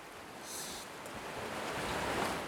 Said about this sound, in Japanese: また波の音。波は山に寄せては、